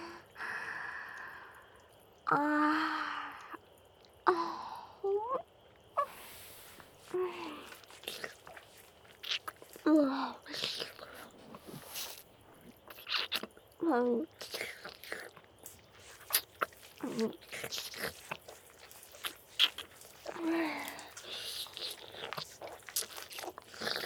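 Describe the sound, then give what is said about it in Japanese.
Wet licking and mouth sounds in a close, intimate setting: many irregular soft smacks and clicks with breathy, whisper-like noise between them, quiet and continuing throughout. “舐めてもいいですか？”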